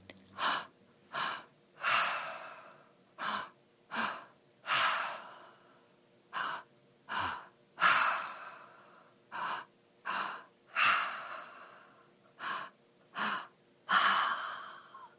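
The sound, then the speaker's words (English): Deep open-mouthed breathing during a breathwork demonstration: a steady series of loud, airy inhales and exhales, each a separate breathy rush with short pauses between, and no talking. “So I'm going to do like 5 breaths to show you how breath work works.”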